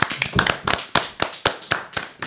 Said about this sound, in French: On va l'applaudir.